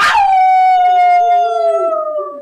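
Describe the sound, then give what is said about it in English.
A single loud animal howl rising from the jungle at night, starting abruptly and holding a sustained, tonal cry that sinks slightly in pitch over more than two seconds, heard alone. “Just then, a howl pierced the night. It came from the jungle. It came from all around us.”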